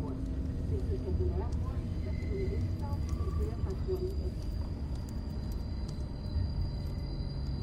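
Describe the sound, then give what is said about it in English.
A moving train gives off a steady low rumble with constant rattling noise, continuous beneath a voice talking over it. “He stares out of the window of a moving train.”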